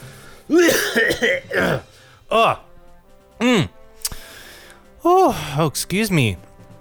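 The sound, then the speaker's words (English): Coughing and throat clearing, with many short, gruff, voiced bursts in irregular clusters and brief pauses between them. “Oh, excuse me, my voice is still somewhat out of practice. Oh, apologies. Bit of a frog in my throat there.”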